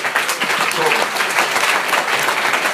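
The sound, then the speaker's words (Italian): Loud applause from students at the close of a group-work session, a thick, steady clatter of many hands clapping at an even level throughout. “Io farei ancora un forte applauso”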